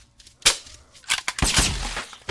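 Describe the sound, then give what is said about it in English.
Gunshots from shooting a zombie in a video game: a few sharp, loud cracks, spaced irregularly, with no voices between them. “I was shooting the zombie.”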